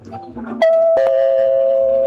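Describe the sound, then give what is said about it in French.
A home doorbell rings early in the morning, before 9 a.m., with two bright chime notes in quick succession that hold a loud, sustained ring until the end. “Oh, mais qui peut sonner à cette heure?”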